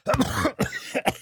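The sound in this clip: Someone clears their throat with a few rough, gravelly bursts in quick succession, each one short and fairly loud, with no other sound around them.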